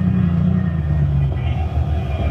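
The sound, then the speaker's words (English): A car engine idles steadily just after pulling into a parking space, a continuous low rumble with no clear change in level. “Now turn off the motor.”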